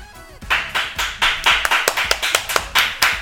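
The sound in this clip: Children clap as a make-believe live studio audience: many sharp hand claps in a quick, slightly uneven rhythm, loud and alone without talk.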